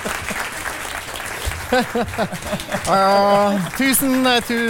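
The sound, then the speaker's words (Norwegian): Audience applause of young and old greeting a cartoonist onto the stage, a dense clatter of clapping that carries on under a voice that begins speaking partway through. “Alle sammen, store og små, gi en stor applaus til Arild Mytun!”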